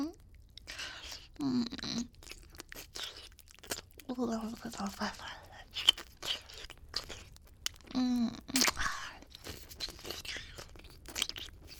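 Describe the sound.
Chewing and eating monster meat, with many soft wet crunches, bites and tearing sounds in an irregular rhythm. A quiet, intimate voice talks in between.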